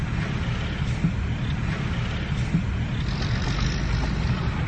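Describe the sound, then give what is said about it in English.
Low rumble of a red Ford Explorer driving away, heard as a steady, even engine drone with no sharp peaks and no voices. “That was a red Ford Explorer, right?”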